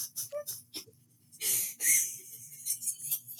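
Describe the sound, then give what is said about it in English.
Wheezing breath comes as a string of breathy, raspy bursts, faint and scattered at first, then louder and denser toward the middle and end. “I'm wheezing.”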